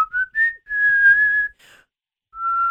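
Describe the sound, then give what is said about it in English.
A person whistles a few short notes that step upward in pitch, then holds a long, clear, fairly high tone. After a brief pause comes one more sustained note, with no other sounds around it. “Can you whistle? I can't whistle. I can whistle. I just did, but I don't know if you can hear that on the podcast.”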